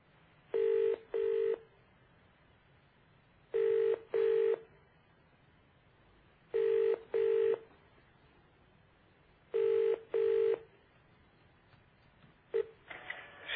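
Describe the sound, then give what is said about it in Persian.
A telephone call is being placed and rings on the line. Four pairs of short tones repeat at steady intervals, and a fifth pair begins at the end. Low line hiss runs underneath, and no voices are heard. “حالا دوباره تماس میگیریم. ویدیالو زدم دوباره بگیریم بینیم چی میگن.”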